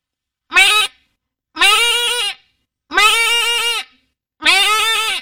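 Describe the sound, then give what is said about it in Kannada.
A human voice imitating a goat bleating, performed as mimicry: four loud, wavering, nasal bleats, each under a second long, separated by short silences. “ಮೇಕೆ ಕೂಗುವುದು.”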